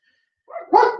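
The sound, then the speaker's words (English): A dog gives a single short bark. It begins with a softer lead-in and swells into a loud full burst at the end, with nothing else around it. “Hey, no barking, dogs.”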